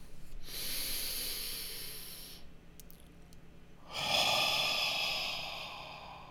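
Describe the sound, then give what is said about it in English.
A deep breath taken during a guided relaxation exercise: a slow, airy inhale lasting about two seconds, a quiet pause, then a longer, fuller exhale. Both are soft, with no talk over them. “And let's take a nice deep breath together and focus on how you feel.”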